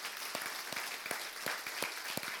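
A church audience at a Sunday worship service applauds, with clapping that carries a steady rhythmic beat of sharp, evenly spaced claps over a continuous wash of hand noise.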